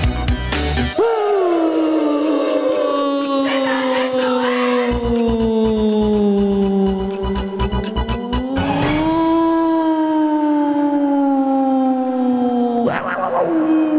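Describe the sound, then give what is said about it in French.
A wolf howls in one long, loud, sustained tone that rises, then slowly sinks. It swells upward again later, with a brief burst near the end, and a low rhythmic thumping sits underneath through the middle. “C'est bien le loup. Le loup, le loup.”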